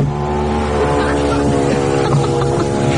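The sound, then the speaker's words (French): The electric window of a tuned car whirs as its motor drives the glass, a loud, steady mechanical whine with a droning hum that runs unbroken throughout. “Écoutez une vitre qui se monte et qui se descend,”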